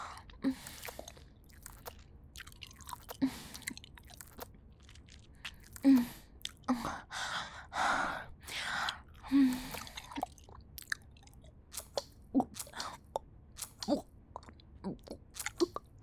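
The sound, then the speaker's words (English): Gum being chewed makes soft, wet smacks and sticky clicks that come in an irregular run of many small bites, faint overall with a few louder squishy bursts. “I guess I am excited to see what your gum tastes like.”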